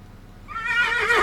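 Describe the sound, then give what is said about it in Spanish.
A small horse neighing: after a brief quiet moment, one loud, quavering whinny with wavering harmonics rises and grows stronger to the end. “Ahí, acaba de relinchar el caballito.”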